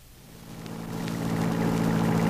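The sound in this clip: A car engine hums steadily as the vehicle drives along a country road at night. The low, even drone builds gradually in loudness, with no voices.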